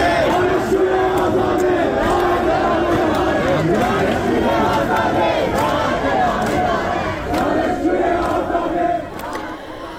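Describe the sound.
Protesting students at Khajeh Nasir University form a loud crowd, shouting and chanting together in a dense, continuous roar that holds steady and eases slightly near the end.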